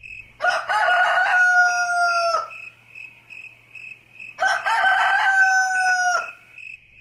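A rooster crows twice in the early morning, two long, harmonically rich calls separated by a pause, over a continuous high chirping of insects.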